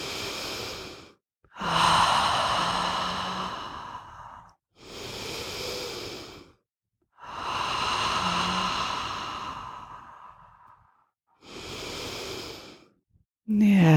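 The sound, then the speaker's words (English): Deep, slow breaths are taken in through the nose and let out through the mouth as part of a guided breathing exercise. Several long, airy swells rise and fade, with brief silent pauses between them. “Three nice deep cleansing breaths in through the nose, out through the mouth.”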